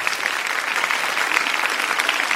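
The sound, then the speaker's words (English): Applause from a crowd, dense and steady clapping that holds at an even loudness for about two seconds, with no break or swell. “Congrats again. Round of applause.”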